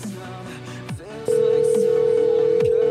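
Telephone sounds from a repeated call attempt: brief mixed tones, then a loud, continuous, steady telephone tone that holds unbroken to the end.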